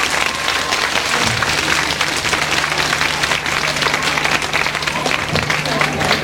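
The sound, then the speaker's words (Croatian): An audience breaks into a big round of applause to greet children from the Bjelave children's home, a loud, dense, continuous clapping over a low steady hum. “Idemo svi da ih pozdravimo jednim velikim aplauzom.”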